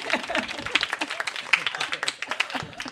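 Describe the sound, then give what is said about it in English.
Audience applause welcoming a guest at a live comedy show at San Francisco Sketchfest: a dense, steady patter of many hands clapping. “Please put your hands together for Ahamed Weinberg.”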